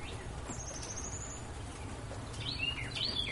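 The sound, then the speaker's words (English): Faint bird calls: a thin, high chirp early on and a few sharper high chirps near the end over a soft, steady background hiss. “Pay no mind to that bird.”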